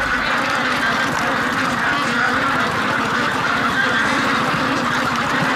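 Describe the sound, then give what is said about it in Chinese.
Many plump, fattened ducks on a farm quack nonstop on their last day of fattening, forming a dense, loud, overlapping chorus that stays steady throughout. “看着一只只膘肥体壮的鸭子”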